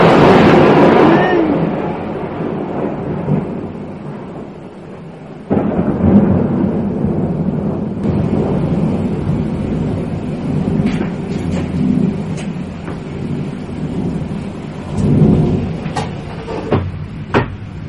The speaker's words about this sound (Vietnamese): Sấm chớp to quá, sợ quá các bạn.